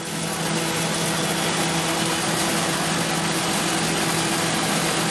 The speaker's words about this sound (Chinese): 把这些都筛出去。现在就依照目前的这个设置点启动。